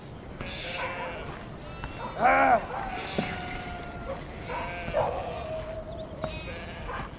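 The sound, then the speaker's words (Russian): Sheep bleating as they are herded into a farmyard. A few wavering bleats are heard, the loudest near the middle, over a steady rustling background, with a voice speaking at times. “загоняет во двор овец”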